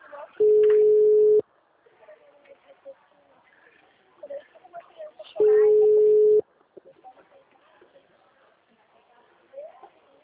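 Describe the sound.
Ringback tone of a phone call to a mobile: two steady, low-pitched beeps, each about a second long and roughly five seconds apart. Faint voices chatter quietly between the tones.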